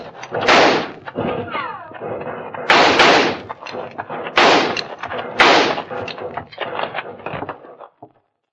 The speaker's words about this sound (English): They've quit firing. I guess they must be reloading.